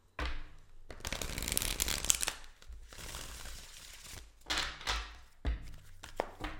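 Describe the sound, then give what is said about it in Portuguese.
A deck of cards is shuffled for a card reading. Bursts of riffling and flapping cards come in several waves, with crisp papery rattles between softer shuffles and a few light taps at the end. “Deixa eu embaralhar bem.”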